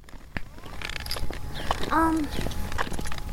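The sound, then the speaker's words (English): White canes tap irregularly on a road as people walk, giving sharp, light clicks, with a brief voice partway through. “So we're walking, as it's fairly evident what we're doing, I think, by the sound of our canes.”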